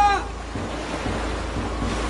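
Rushing water and waves of a great flood, a steady broad roar of churning surf with low surges swelling a few times underneath, holding fairly loud and even throughout.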